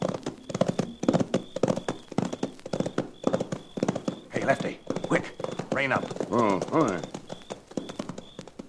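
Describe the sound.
Horses' hooves clip-clop as riders approach, with many brisk, evenly spaced hoof strikes in a steady rhythm that continues throughout.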